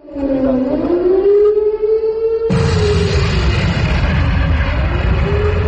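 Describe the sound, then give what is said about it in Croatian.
A civil defense siren opens a protest rally against Montenegro joining NATO. Its loud, wavering wail slowly rises and falls in pitch. Partway through, a dense, low rumbling noise joins it and continues beneath the siren. “Tonovima sirena i bombardovanja počeo je skup protiv učlanjenja Crne Gore u NATO alijansu.”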